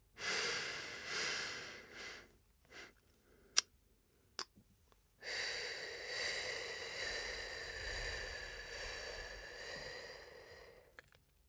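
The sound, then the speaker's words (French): Slow breathing exercise with counted inhales and exhales: a soft breath draw, a pause broken by a few small clicks, then a long, airy exhale that stretches on for several seconds. No one speaks. “Quatre temps inspire, on et 7 temps à l'expiration.”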